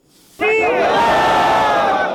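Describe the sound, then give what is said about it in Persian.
A loud crowd of protesting parliamentary election candidates and their supporters shouting together outside the provincial election commission in Herat, the massed voices rising abruptly and holding as a sustained roar. “ده ها تن از نامزدان معترض ولسی جرگه با صدها تن از هوادارانشان در مقابل کمیسیون ولایتی انتخابات هرات دست به تجمع اعتراضی زدند.”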